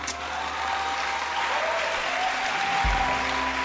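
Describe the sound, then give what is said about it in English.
Audience clapping during a church service: a dense, even wash of many hands clapping together, sustained steadily throughout with no gaps or pauses. “I like the way you're clapping.”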